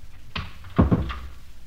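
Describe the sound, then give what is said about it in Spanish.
A door is closed with a few soft, knocking thuds bunched close together, one after another, and no voices over them. “¿Cierro? Pero no eches la llave.”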